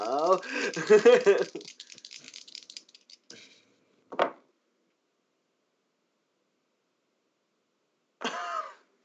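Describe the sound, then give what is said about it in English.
Three dice rolled during a tabletop role-playing game, heard as a few short, dry clattering bursts separated by silence, with a voice and faint rustling at the start. “that was me rolling 3 dice and getting a natural 20 on all 3 of them.”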